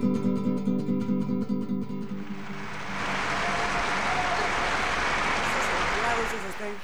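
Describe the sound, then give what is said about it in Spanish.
Audience applause fills an auditorium after a music and poetry event, entering after a brief tonal passage and then holding as a dense, steady clapping wash until the end. “Esos aplausos van a estar en el auditorio. Ahí quedó grabado también.”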